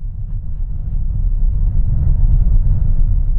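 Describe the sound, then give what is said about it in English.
A car's engine and road noise rumble as it climbs the steep road with sharp turns up Independence Pass, heading east out of Aspen, Colorado. The low drone is loud and constant and swells slightly partway through. “We're driving east out of Aspen, Colorado, up Independence Pass.”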